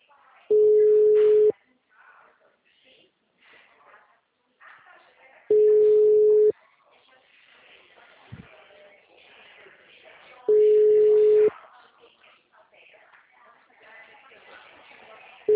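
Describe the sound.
A telephone busy signal gives three steady one-second tones at even intervals, with voices and background noise between them.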